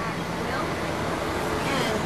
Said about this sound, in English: This is what it looks like right now. Like a blower, because it's flooded in there.